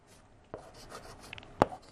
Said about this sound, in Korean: 그래서 예를 들어서 여기다 별을 한번 세 개를 그려볼게요.